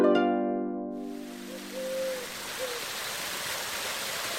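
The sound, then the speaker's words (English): A river flowing through a village produces a steady, even rushing wash of water that carries on unbroken after a brief held musical tone fades out at the start. “The striking sound you hear is the sound of the beautiful river which passes through Fushë.”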